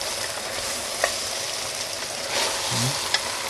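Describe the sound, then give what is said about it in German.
Vegetables and a roast browning in a pot give off a steady, even sizzle with a crackling hiss. Two brief sharp clicks cut through, and a low thump comes near the end. “Das Gemüse ist schön. Wunderbar. Äh, wenn das jetzt so ein bisschen mit anröstet, ne?”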